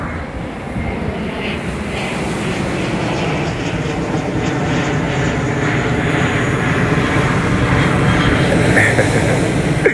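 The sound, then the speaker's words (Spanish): An airplane passes overhead with a loud, steady roaring drone that swells slowly and holds without a break throughout. “está pasando un avión, ustedes saben que estamos live”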